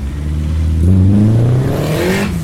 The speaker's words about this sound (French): Alors en fait, t'as le turbo qui charge, et pour éviter de casser le turbo, il y a une décharge par une soupape de décharge, qu'on appelle une dumb valve dans le jargon mécanique.